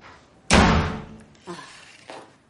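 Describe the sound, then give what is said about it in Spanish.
A door slams hard in a small apartment with one loud, heavy bang, followed by a couple of much softer thuds as the noise dies away. “Romperás la puerta.”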